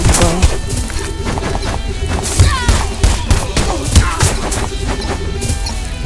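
A bomb explodes in a video game amid a busy cluster of crashing, popping impacts and sharp bangs, with a steady electronic tone pattern running underneath throughout.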